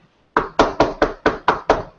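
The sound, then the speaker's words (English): Knocking at a door: seven firm, evenly spaced raps in a quick steady rhythm, each a loud dull thud with a short decay, heard alone without voices. “What was that? Oh, someone's at the door.”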